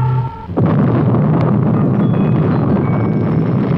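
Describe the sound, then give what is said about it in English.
A massive bomb explosion destroys a city: after a brief low tonal hum, a sudden loud burst erupts into a sustained, roaring rumble that stays heavy and dense to the end. “With this unspeakable explosion, the city once again, and for all time, is destroyed.”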